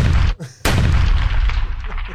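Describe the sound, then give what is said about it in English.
Pistol gunshots fired inside a room: loud, sharp blasts with a brief gap between them, each followed by a heavy, rumbling tail that slowly fades. “the Marine responds with a nod, picks up the pistol, and without hesitation, heads in. And the producer hears gunshots”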